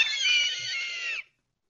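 A high, excited squee of delight from a man: one sustained, bright squeal with a wavering pitch that lasts about a second, then cuts off into silence.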